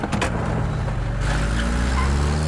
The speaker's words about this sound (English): The van drives off with Lucien